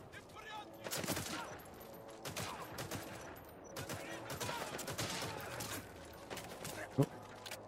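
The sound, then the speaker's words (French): Video game gunfire aimed at the player: many quick bursts of sharp shots in irregular volleys at moderate volume, with one sharper crack near the end. “y a comme quelque chose qui me tire dessus. Il tire dessus.”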